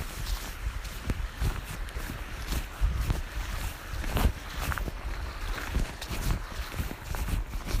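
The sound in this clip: Footsteps walking across a field in white shoes, a regular soft crunching tread under constant rustling, breezy noise.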